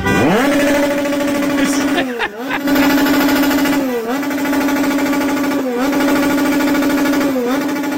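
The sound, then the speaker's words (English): Motorcycle engine revving outside a hotel, a loud, steady buzzing drone with strong harmonics that rises at the start and then dips briefly several times, dropping and recovering in pitch with each dip. “That was a motorcycle. They're revving a motorcycle.”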